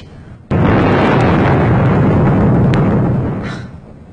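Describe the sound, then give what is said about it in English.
Missiles explode: a sudden heavy blast breaks in after half a second of quiet, then holds as a loud, dense roar that gradually fades near the end. “Listen, those missiles have all gone off.”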